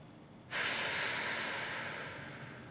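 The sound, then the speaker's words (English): A deep exhale voiced as a sustained letter F, an airy breathy hiss that starts abruptly and then slowly fades over about two seconds. “Take a deep breath, and on the exhale, pronounce the letter F.”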